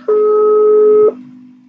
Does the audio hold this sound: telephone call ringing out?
yes

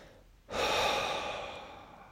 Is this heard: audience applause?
no

